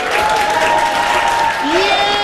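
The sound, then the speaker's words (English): Health professionals at the Mayo Clinic in Rochester, Minnesota, applaud and cheer colleagues playing the game Loser Ball, a dense, steady wash of clapping with voices calling out over it. “At the world-renowned Mayo Clinic in Rochester, Minnesota, a room full of health professionals is cheering on colleagues throwing and dropping imaginary balls.”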